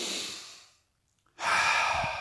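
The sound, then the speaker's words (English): Deep breathing during a morning breathing exercise: two long, airy breaths with a short silent gap between them, clear and close, with no talk. “We breathe. And as we breathe, as we wake up in the morning, we try to firstly expel the CO2 out of our lungs.”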